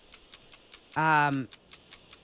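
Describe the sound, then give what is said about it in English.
A quiz timer clock ticks with rapid, even, crisp ticks throughout, briefly overlapped in the middle by a short spoken voice. “60 seconds on the clock. Here we go.”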